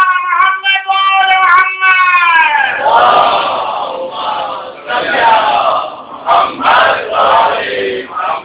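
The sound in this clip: A crowd at a Shia religious gathering chanting the Nara-e-Haidari slogan 'Ya Ali'. A drawn-out, tonal call gives way to a loud, rolling mass of many voices that rises and dips in waves.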